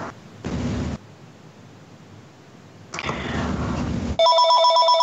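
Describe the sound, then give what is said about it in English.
A phone rings during a tabletop roleplaying game session, its bright, steady electronic tone filling the last second, after two loud bursts of rushing noise separated by quieter hiss. “And someone's phone.”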